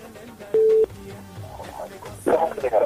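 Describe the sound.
A single short, steady telephone line tone, well under a second long, sounds as a new call is connected, surrounded by low background noise and muffled voices.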